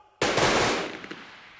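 Riflemen of the 68th regiment fire a single gunshot volley on command: one sudden, loud blast that fades into a rumbling tail.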